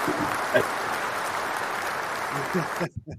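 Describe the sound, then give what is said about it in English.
Applause from an audience welcoming a guest: dense, steady clapping at an even level for nearly three seconds, then cutting off abruptly, with a brief voice just before it stops. “hey, Dave told us he wasn't going to come on until we clap for him. I just want y'all to know. I had to get my claps in, man.”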